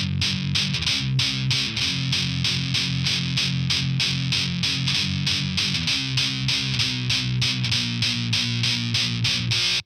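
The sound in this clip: Distorted electric guitar played slowly through an effects pedal with a built-in noise gate: a steady, even pattern of repeated chords that cuts abruptly to total silence when the playing stops.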